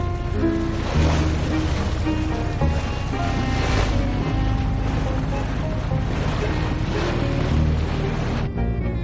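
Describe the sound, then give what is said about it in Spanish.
A boat pulls out of harbour in the middle of the night, its low engine drone steady under a constant rush of water and wind, holding level throughout before dropping away abruptly near the end. “Zarpan del puerto en mitad de la noche.”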